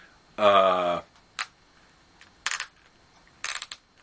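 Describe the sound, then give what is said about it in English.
Ratcheting joint in a toy figure's hand clicking as it is moved, in a few short, crisp bursts of clicks separated by pauses, the last burst a quick rattle of several clicks. “Listen to this. That's a nice, tight ratcheting joint so that the hand will stay where you put it.”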